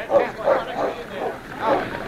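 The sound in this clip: Dog barks and yips in a radio drama, a few short, evenly spaced barks mixed with talking voices.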